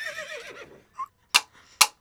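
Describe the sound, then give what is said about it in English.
A horse whinnies in a children's story about a Pony Express rider chasing a train, its falling neigh followed by a few sharp, clicking knocks. “Quick, jump on my horse. We'll catch him.”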